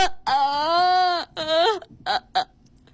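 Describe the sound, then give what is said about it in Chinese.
A voice actor performs crying in a Beijing arts radio studio: a long, high, drawn-out wail, then a shorter wavering wail, followed by a couple of brief choked sobs and gasps. “在这个直播间，我 哭的好有层次啊！”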